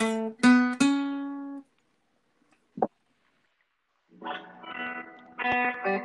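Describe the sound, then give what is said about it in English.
Guitar notes plucked in a whole tone shape on the G and B strings: a few ringing single notes, a pause broken by a small click, then more notes ringing out alone. “Play this shape where you go 0, 2, 0, 2 on the G string and then the B string. It should sound like this.”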